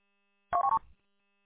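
Touch-tone telephone dialing: three short, clean keypad beeps in quick succession, together lasting under half a second, faint and alone against silence.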